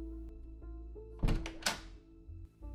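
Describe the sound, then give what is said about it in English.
A knock at the door of a home's living room: two dull, heavy thuds close together, with a quieter bump just after, over a low steady hum. “Stephanie enters the room upon hearing the knock at the door.”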